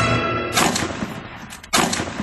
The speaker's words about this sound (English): two shots, two misses.